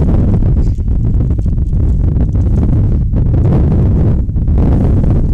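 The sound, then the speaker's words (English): Strong wind blowing on the microphone at an outdoor softball game, a loud, steady, low buffeting rumble that surges and briefly dips without pause. No voices. “Wow, and the wind is really just going insane now. Again, it's been blowing all day long, but all of a sudden it just whipped up.”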